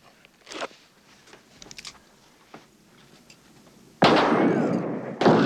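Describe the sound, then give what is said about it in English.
Gunfire in a battle scene: scattered faint, sharp cracks at first, then an abrupt, loud sustained burst of noise. A second surge comes at the very end, with no voices. “they're shooting at us.”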